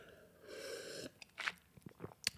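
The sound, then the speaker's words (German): A quick small sip of a drink: faint slurping, a few wet mouth clicks and a swallow, soft and alone after a brief steady tone. “ich muss ganz kurz einen kleinen Schluck trinken.”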